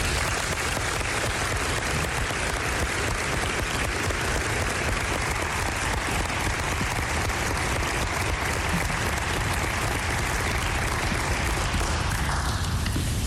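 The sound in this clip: An audience applauds to welcome a speaker onto the stage, with dense, even clapping holding steady from start to finish before thinning slightly at the very end.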